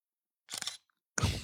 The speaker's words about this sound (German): Aber jetzt sieht man, jetzt habe ich ein super Foto gemacht